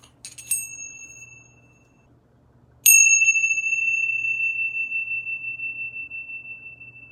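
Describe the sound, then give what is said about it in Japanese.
Tibetan tingsha bells, small cymbals used in yoga: a few light clinks, then one clear high strike that rings on for several seconds with a gentle pulsing shimmer as it slowly fades. “ヨガなどで使われるティンシャ、まあ、チベタンベルと言われるもんなんですけれども、”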